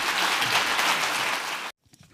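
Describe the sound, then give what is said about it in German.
Audience applause at an economic forum in eastern Germany after a political speech, a dense, steady clapping from many hands that cuts off abruptly near the end. “Auch dafür bekommt Friedrich Merz in Bazzaro viel Applaus.”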